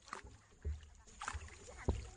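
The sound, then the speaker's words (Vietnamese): Soft splashing and lapping water as a rowing boat moves through a cave, faint throughout, with a few dull low knocks of the hull or oars. “Thuyền đi thêm một quãng nữa là tới núi Cửa Chùa.”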